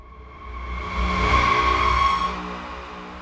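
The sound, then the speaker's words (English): A car engine accelerates as the vehicle speeds down a highway. The drone swells to a strong, steady whine, holds for about a second, then fades away. “As Naz gunned the vehicle down the highway towards Miguel's location”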